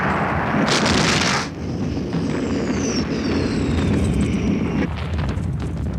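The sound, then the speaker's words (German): Cannons fire canister shot at the 1812 Battle of Borodino, heavy booming blasts over a constant roar of battle, with high whistling streaks sweeping down through the din. “Alle Geschütze, Kartätschenfeuer!”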